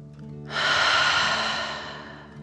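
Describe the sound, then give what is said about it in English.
A deep breath taken during a children's relaxation exercise that imitates a dragon breathing fire: one long, loud, airy breath swelling and slowly fading over about two seconds. “Let's take another three deep dragon breaths. Deep breath filling up your belly in and out.”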